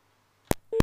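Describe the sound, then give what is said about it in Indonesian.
A telephone busy tone on a disconnected line sounds as two short, bright tone pulses about a third of a second apart, following near silence. “Oke, teleponnya masih belum tersambung, ini tadi terputus.”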